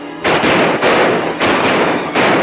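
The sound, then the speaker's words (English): Loud gunshots ring out in a firefight, four harsh cracks in quick succession. Each crack carries a brief noisy tail that runs almost into the next. “Another of Mosley's men is hit. Frank takes a shot and then dashes away from his tree.”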